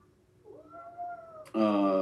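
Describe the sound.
A cat meows twice: a soft, drawn-out tonal call, then a much louder, harsh cry that is rich in harmonics and lasts to the end.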